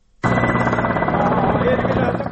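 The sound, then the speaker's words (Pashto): Military combat helicopters fly over Marja district in Helmand during a military operation, producing a loud, steady rotor drone that starts abruptly and holds level throughout. “د بهرنیو ځواکونو د جنګي هلیکوپټرو تر څنګ ځینې نورې الوتکې هم په هوا کې ګرځي چې موږ یې نه وینو”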